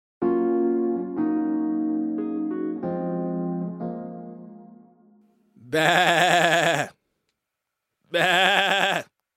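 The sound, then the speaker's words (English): A goat bleats twice, loud, wavering cries with a short gap between them, after a few seconds of sustained musical notes that fade out. “That's the sound of the GOAT, baby.”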